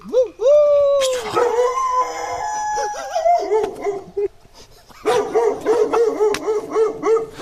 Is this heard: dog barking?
yes